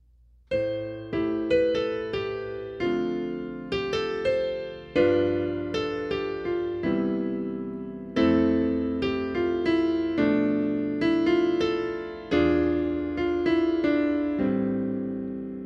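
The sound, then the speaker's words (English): Solo piano played the way a beginner sounds: many notes and chords in uneven, halting phrases with several short breaks and restarts, each new phrase struck firmly and left to ring and fade. “What's happening in their solo piano is this, and I'm going to demonstrate.”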